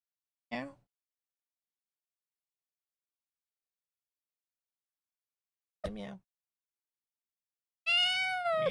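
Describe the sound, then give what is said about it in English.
A cat meows three times with long silences between them. The first two calls are short, and the last is longer and stronger, with a drawn-out, wavering tone. “Hello, cat.”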